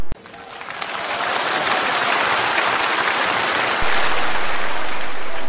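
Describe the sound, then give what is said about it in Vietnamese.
An audience of children bursts into applause, starting with a sharp crack and swelling within a second into dense, steady clapping that holds, then jumps louder near the end. “Mới nói ăn kem là vỗ tay”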